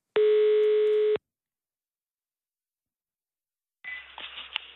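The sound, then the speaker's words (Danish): Telephone ringing tone on a call to an embassy in Stockholm: one steady, loud one-second tone, then a long silence before a voice answers at the end. “ringede vi til tidligere i dag. Og det lød sådan her.”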